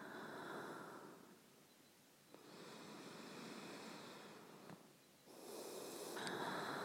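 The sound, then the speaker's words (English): Slow, soft breathing with a few long, airy swells of inhaling and exhaling separated by short lulls. There is no talking. “Put your head on my chest. And just listen to me breathe.”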